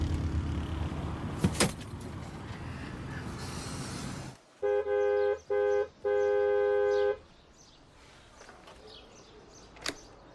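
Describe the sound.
A car horn honks three times, two brief blasts followed by one longer held blast, each a steady bright buzzing tone, set against quiet street noise with a couple of faint clicks.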